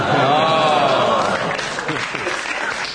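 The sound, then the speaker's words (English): A crowd cries out the chant "Godfrey, Harry, Anne, St. George" together, a loud continuous roar of many voices with a sustained raised voice early on and a clapping-like wash of noise beneath. “That's why you can hear everyone cry, Godfrey, Harry, Anne, St. George.”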